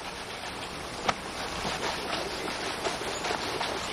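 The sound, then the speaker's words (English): Calm river water flowing steadily with an even, continuous wash, broken by one brief sharper splash or tap early on. “Calm river water.”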